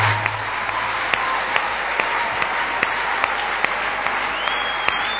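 A church audience applauds in praise of God. A steady wash of clapping is marked by sharp, evenly spaced claps that keep a regular beat throughout.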